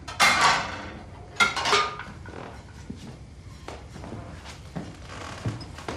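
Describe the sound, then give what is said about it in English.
Dishes being washed in a kitchen: a few loud clattering clanks of crockery near the start, then lighter, scattered clinks and knocks of plates and utensils at irregular intervals. “In the kitchen, the camera approaches Sarah from behind as she washes dishes.”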